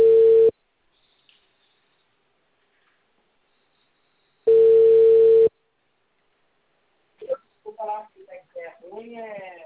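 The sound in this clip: Telephone ringback tone heard while placing a call: a steady, mid-pitched tone sounds in two loud one-second bursts separated by a few seconds of silence, then a person begins speaking.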